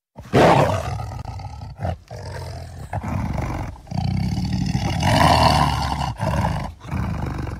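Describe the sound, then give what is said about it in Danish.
A tiger roars in a string of deep, rough, growling bursts broken by short pauses, loud and heard alone with no voices. “det lige var en tiger, det her”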